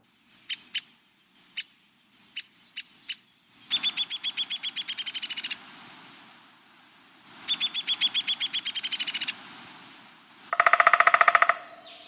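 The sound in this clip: Resident birds that visit feeders year-round call: several short, sharp chirps spaced apart, then three bursts of rapid, high trilling notes separated by brief pauses.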